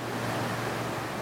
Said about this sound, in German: wenn er im Hall des herabrieselnden Wassers um die tiefen Gruben geht, in denen einst die Türme standen und die heute Gedenkstätte sind.